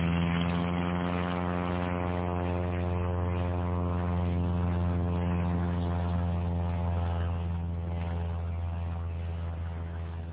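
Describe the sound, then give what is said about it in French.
Propeller airplane engine drones steadily at an even, low, buzzing pitch, loud and continuous throughout with no talk, easing slightly in volume near the end. “Par miracle, le moteur commence à tourner. L'avion démarre, et après quelques hésitations bien compréhensibles, accepte de s'écouler.”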